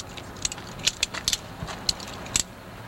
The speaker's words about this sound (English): We'll click the knife and flick it back again.